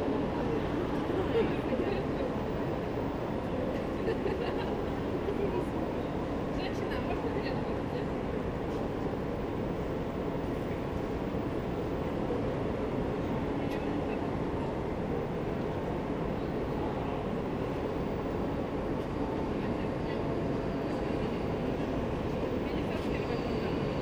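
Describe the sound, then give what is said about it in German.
A train departs from platform 11 at Berlin Hauptbahnhof with a steady, low, continuous rumble that holds at an even level throughout. “Ladies and gentlemen on platform 11, please board the train. You clear of the doors and take care while the train is departing.”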